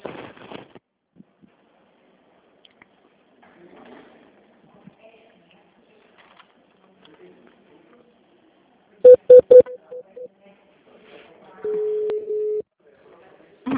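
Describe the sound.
Telephone keypad dialing tones as a call is transferred: faint, quiet talk on the line, then a quick burst of short, loud beeps followed by a longer steady tone.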